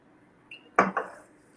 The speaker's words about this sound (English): Okay, so I'm going to mix the vegetables I have in the bowl. I'm going to mix it with a little olive oil.